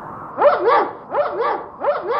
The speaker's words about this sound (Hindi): बहादुर जोर जोर से भौंकने लगा